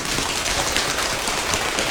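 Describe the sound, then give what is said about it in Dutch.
Rain imitated by people tapping their hands on their legs, a dense, steady patter of many quick taps merging into a loud, even rain-like hiss. “De wind gaat weg en gaat weer regenen.”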